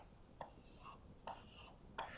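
Faint pen strokes as someone hand-draws a diagram of open and closed strings, with about three soft scratchy strokes spaced through otherwise quiet background.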